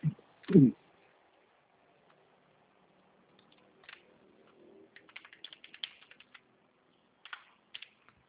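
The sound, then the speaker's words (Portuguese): Typing on a computer keyboard: a brief loud burst near the start, then many quick, light key clicks in an uneven rhythm, bunched toward the end. “Aí você vai digitar direto BMG.”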